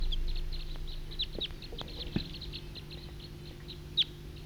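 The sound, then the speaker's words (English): Wild bird calls: a few short, high chirps over a steady low hum, with one sharper, louder call near the end. “Wild bird. Wild.”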